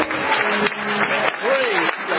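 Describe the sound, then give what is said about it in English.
A church audience claps in praise, a dense, continuous wash of applause with a voice calling out over it. “Come on, can we give the Lord a great big hand clap of praise?”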